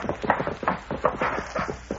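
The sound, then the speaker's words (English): Hoofbeats of a horse galloping hard as its rider arrives, a fast, loud, rhythmic drumming of hooves that continues throughout. “He's coming in riding hard. Hello, he must have something to report. He's been watching things at the Lundeen Ranch. Yeah, there he is. That's his horse, Devin.”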